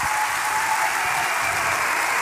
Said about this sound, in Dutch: Kijk, applaus.